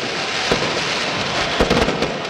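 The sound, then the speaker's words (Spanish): Fireworks exploding at a football match: a few dull booms and cracks over a constant loud roar of background noise. “Fuegos artificiales.”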